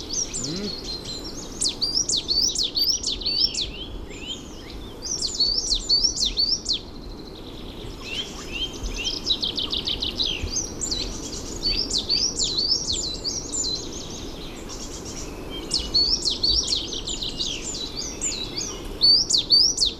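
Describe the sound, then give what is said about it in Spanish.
Larks sing in open country such as moorland, farmland and open plateaus in winter. Bursts of rapid, high-pitched, rhythmic twittering song repeat throughout, over a steady low background rumble. “lo que canta en estas fechas y durante los próximos meses serán las alondras, los aláudidos.”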